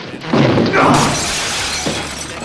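A window pane is smashed open by force in a dramatized escape scene: a loud glass crash followed by a second heavy burst, then scattered shards tinkling and crackling as the sound dies away.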